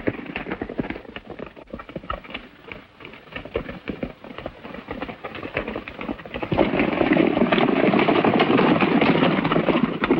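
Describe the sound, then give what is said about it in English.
Horses gallop at a furious pace, rapid hoofbeats pounding in a dense rhythm that swells into a louder, continuous thunder partway through. “Zanti's men ride on at a furious pace. Ruby gets to her feet. Galloping past, John sweeps her onto his saddle.”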